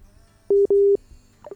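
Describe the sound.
Telephone busy signal after a call is cut off: two steady mid-pitched beeps, a short one and then a longer one, followed by faint noise.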